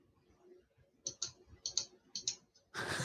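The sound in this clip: Computer mouse clicking on a web page link: a few light, crisp clicks in quick pairs, faint against quiet background hum, followed by a sudden burst of louder rushing noise at the end.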